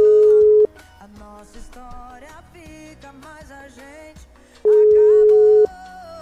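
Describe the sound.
Ringback tone as a radio station calls a listener: two long, steady, mid-pitched tones a few seconds apart, with music filling the gap between them.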